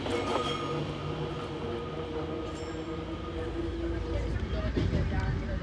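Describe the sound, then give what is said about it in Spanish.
Old Fiat train running on rails on a local line, producing a continuous low rumble with faint metallic tones and a few sharper knocks. “Al llegar a Paternó, Rosana, con su viejo tren Fiat, obtiene preferencia.”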